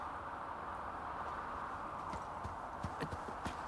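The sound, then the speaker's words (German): Faint clip-clop of a small pony's hooves in fog, first a steady soft hiss and then a few light, distinct hoofbeats near the end. “Tatsächlich, ein kleiner Hobbit auf einem kleinen Pony.”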